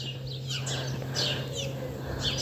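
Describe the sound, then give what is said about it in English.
A small house sparrow chirping from a roof gable gives a few short, high chirps spread across the moment, faint over a steady low hum. “I can see a little house sparrow up on one of the gables in the roofs.”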